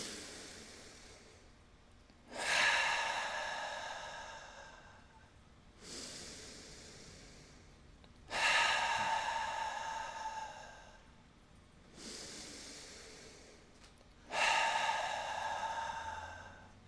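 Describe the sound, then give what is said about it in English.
Three slow breaths drawn in through the nose, each a loud, airy rush followed by a softer exhale, evenly spaced with quiet gaps between. “Let's take three breaths together. Inhale through the nose.”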